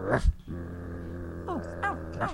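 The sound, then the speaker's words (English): Dogs growl in a low, sustained rumble that holds steady for about two seconds. Short sharper yips break in near the start and the end. “Dogs? Why did it have to be dogs?”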